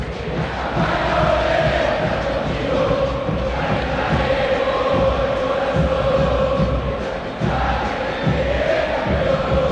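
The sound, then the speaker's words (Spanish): River Plate fans roar at the Monumental stadium as the players come out for a match against Vélez. A dense, loud crowd roar with chanting holds steady for the whole stretch. “Habla el público millonario aquí en el Monumental.”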